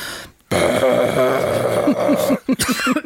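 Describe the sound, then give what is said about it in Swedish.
A rough, raspy vocal growl made with the false vocal folds holds for about two seconds, then breaks into a few short, harsh coughs. “Vi har ju ovanför de vanliga stämbanden så har vi två små veck som heter falska stämband. Och det är de man growlar med. Jag börjar alltid hosta när jag growlar, men det låter lite så här.”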